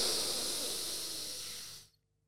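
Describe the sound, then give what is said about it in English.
One long, deep breath during a quick breathing exercise, a steady airy hiss held for nearly two seconds before it stops abruptly, leaving silence. “Let's go for a really big breath.”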